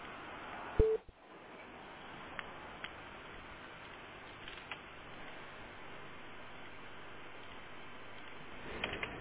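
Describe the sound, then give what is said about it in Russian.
A call-waiting beep cuts into a phone line: one short, loud, low tone stands out early over a steady bed of line hiss, followed by a few faint clicks. “Тебе названивают, там вторая линия.”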